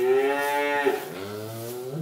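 Cattle mooing on a farm where cows care for their calves: one long, loud, tonal moo whose pitch drops partway through and then climbs slightly near the end, heard alone with no voices.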